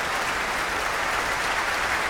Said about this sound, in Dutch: Groot, groot applaus hier in de grote zaal voor violiste Noah Wildschut. Zij speelde samen met het Residency Orkest onder leiding van Andrew Grams. Vioolconcert nummer 3 in B-klein van Camille Saint-Saëns.